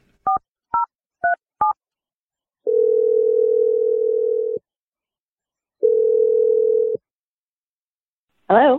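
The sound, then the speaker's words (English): Touch-tone dialing on a telephone for an outgoing call: four short dual-pitch key beeps, then two long, steady, evenly spaced ringing tones. A brief voice comes in at the very end. “So here we go. Good luck to us. I'm dialing the number right now.”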